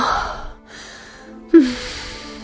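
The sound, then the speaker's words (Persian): A deep breath, made of breathy rushes of air with a brief pause and then a sharper, louder intake partway through that continues steadily to the end. “یه نفس عمیق بکش”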